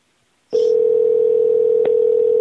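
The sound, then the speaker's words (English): Recorded telephone tone: after half a second of silence, a loud steady tone at a single pitch cuts in abruptly and holds, with one brief click near the end. “We got some sporadic ringing here. A recording of ringing?”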